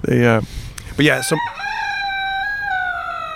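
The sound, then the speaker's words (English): A rooster crows loudly, first with a couple of short harsh bursts, then one long, drawn-out, ringing call held at a steady pitch to the end. “Whenever you hear the rooster in the backdrop,”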